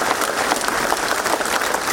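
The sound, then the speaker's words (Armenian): Applause at a funeral as the body of a community head is carried out of a house of culture: loud, dense clapping from many people, steady and unbroken. “նրա մարմինը մշակույթի տան շենքից դուրս են բերում ծափերի ներքո։”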